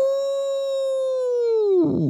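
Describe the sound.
A woman's voice imitates a wolf howl: one long, sustained, high wail that holds steady, sags slightly in pitch near the end, then breaks off into a rough, ragged tail.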